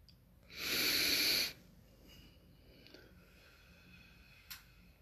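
A single deep breath drawn in during a meditation session with children: one loud, airy inhalation of about a second, then quiet with a few faint small sounds.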